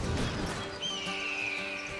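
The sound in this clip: A Clydesdale horse neighs in a country-themed television promo, giving a long, high, wavering whinny over a steady tonal background.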